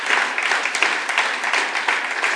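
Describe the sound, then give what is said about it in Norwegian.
Audience applause at a singing event, a dense, even patter of many hands clapping steadily and fairly loudly throughout, with no one talking over it. “Det, ja, en applaus til deg.”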